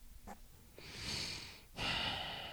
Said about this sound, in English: He just had to take a deep ass breath.